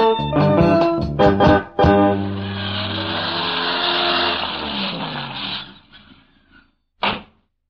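Car engine driving off: a loud, rough roar holds for several seconds, then fades away, followed by a brief burst of noise near the end.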